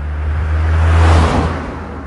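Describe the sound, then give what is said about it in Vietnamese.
A car accelerating and driving off: a low engine drone swells to a peak, then falls away with a broad rushing whoosh as it fades. “đạp ga nghênh ngang lái xe đi.”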